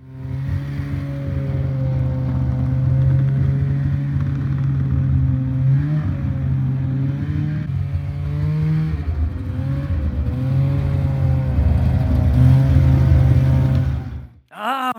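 Snowmobile engine revving on a lap around a house, a loud continuous droning roar whose pitch wavers up and down with the throttle, running steadily for about fourteen seconds before cutting off abruptly near the end.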